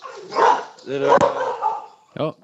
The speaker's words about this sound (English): it's my dog.